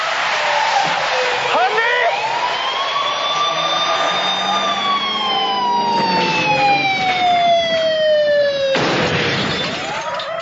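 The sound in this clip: A police car siren from a film wails loudly and steadily, its rich harmonic tone slowly gliding downward in pitch, with a couple of sharp noisy bursts cutting in partway through.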